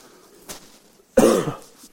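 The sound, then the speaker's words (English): A single sharp, loud cough from someone who has been coughing heavily for a week, preceded by a faint breath-like sound. “I'm going to try not to have a coughing attack. I've been coughing like crazy for the last week”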